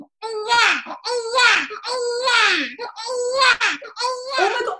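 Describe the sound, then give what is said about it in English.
A voice imitates a small toddler throwing a crying fit over a full diaper. About five loud, wavering wails follow one another with barely a break, pitched like a child's and sliding in tone. “It's going to sound like there's a child coming through your headphones. Okay. A toddler, small baby, threw a fit, my diaper's full. That's what you're about to hear.”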